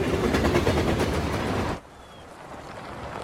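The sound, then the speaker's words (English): A freight train lumbering past beside a railway line, a loud rumbling roar with steady, rhythmic clacking that cuts off abruptly partway through, leaving a much quieter hiss. “A freight train lumbers past them.”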